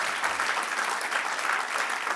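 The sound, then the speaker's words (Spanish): Applause from a church audience during a Spanish-language worship service, steady and dense clapping that holds at an even level throughout, with no voices over it. “Dale aplauso, alabe al Señor.”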